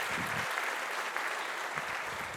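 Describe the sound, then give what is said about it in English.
Audience applause greets a panelist being introduced at a talk on corporate decarbonisation: steady, dense clapping from a crowd that holds at an even loudness for the whole clip, with no voices standing out. “Please give him a round of applause as well.”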